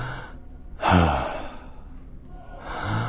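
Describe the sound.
A voice imitates breathing for a choral piece built on the breath. A few breaths are heard, the loudest a sharp, gasping rush of air, with quieter airy breaths around it and another swelling at the end.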